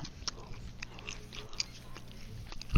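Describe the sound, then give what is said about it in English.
Chewing and biting on roast beef: a few soft, crunchy bites and moist mouth sounds, fairly faint, with no talking. “How's the food? I'm eating roast beef.”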